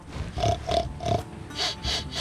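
A person imitates a pig grunting while acting out a hog approaching a wire-gated trap with a pressure plate, giving a steady series of short, breathy, nasal grunts and snorts, moderately loud with no other voices.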